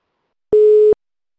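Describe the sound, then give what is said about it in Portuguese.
A single steady telephone call tone: one clean, mid-pitched beep lasting under half a second, alone with no voices. “Hoje a gente vai ligar para o André”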